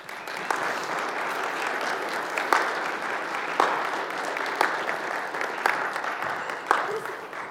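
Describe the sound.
An audience applauds as a family is called up onto a stage at a gathering with a big screen: steady, dense clapping throughout with a few sharper peaks, and voices mixed in.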